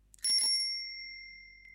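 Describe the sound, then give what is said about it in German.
A single ring of the old bell on a dusty bicycle found in a barn corner: a soft click, then a bright metallic ding whose high, pure tones linger and slowly fade. “Rudi ganz hinten in der Scheunenecke sein altes Fahrrad. Es ist zwar sehr staubig, aber es sieht noch ganz in Ordnung aus. Er probiert die alte Klingel.”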